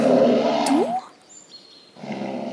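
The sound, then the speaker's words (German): A bear roar played back from a tape: a rough, growling roar that breaks off into a near-quiet pause with faint thin whistling tones, then resumes as a lower rumbling growl. “Ist der Bär? Guck mal. Und? Weg ist er. Du hast nur das Band abgespielt.”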